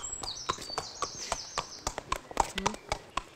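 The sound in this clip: Hooves of a walking racehorse clip-clop in a steady, even rhythm: many crisp, fairly loud hoof strikes at regular intervals over a faint background hiss.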